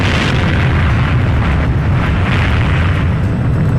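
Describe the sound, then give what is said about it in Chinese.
An atomic bomb explosion sound effect: a loud, deep, sustained roaring rumble of dense noise that holds steady throughout without easing. “他们先后于8月6号和9号在广岛和长崎各扔下了一颗原子弹”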